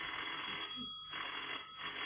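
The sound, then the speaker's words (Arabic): Telephone bell ringing in repeated bursts with brief gaps, a thin, band-limited, fairly faint trill heard alone without talk. “عن اذنك ارد على التليفون.”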